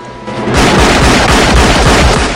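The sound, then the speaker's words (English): Gunfire from a film action scene, a biker's gun fired upside down in a close fight. After a slightly quieter start, a loud, dense run of many rapid shots and bangs continues without a break. “Chance grabs the biker's gun and spins round, firing the weapon upside down.”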